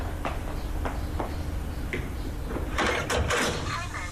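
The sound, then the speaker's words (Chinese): A door being opened at someone's home, heard as a short cluster of clicks and rattling knocks near the end over a steady background hiss. “陶无忌来到陈家园家，蒋瑞打开了门。”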